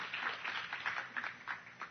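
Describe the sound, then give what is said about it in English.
Congregation applause at a church service, a hand-clap offering given to God: faint, fairly dense clapping that swells and dips unevenly over two seconds. “Why don't you give God a big hand clap offering?”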